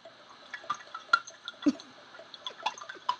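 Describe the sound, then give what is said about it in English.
Water dribbling out of an upturned coconut as it drains, a run of many small irregular drips and gurgles, faint and uneven, with no talk over them. “you got to turn it upside down and you got to drain it. And this is what it sounds like when you drain your cocoa nut.”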